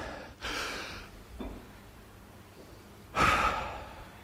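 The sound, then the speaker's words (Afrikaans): Deep breaths are drawn in and let out as soft, airy rushes, a few in sequence, with the final exhale noticeably louder than the others. “Almal haal 'n diep asem.”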